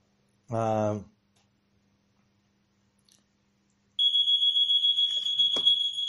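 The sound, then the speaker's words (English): An alarm going off, a piercing, steady high-pitched tone that starts abruptly after a short voice and a pause of silence, then sounds loudly and without break to the end. “okay, we have an alarm. We'll have to take a break.”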